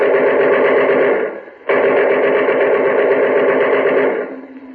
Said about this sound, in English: machine gun fire always was better getaway music than Christmas carols.